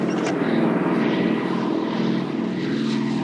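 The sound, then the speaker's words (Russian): German military propeller airplanes attack a truck convoy on a dusty country road, their engines a loud, steady droning roar that holds throughout without pause, and no voices are heard. “Колонну грузовиков атакуют немецкие самолеты.”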